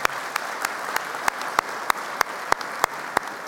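A church audience applauds to welcome visiting guests. Steady, even clapping fills the whole clip, with sharp, regularly spaced individual claps cutting through the wash of hands.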